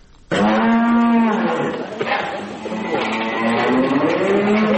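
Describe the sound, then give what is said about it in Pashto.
A cow on a small dairy farm in Kandahar moos loudly in a long, low, drawn-out call, then starts a second moo that rises toward the end. “په کندهار کې د غواګانو یو کوچنی فارم هغه شیدې غاړي”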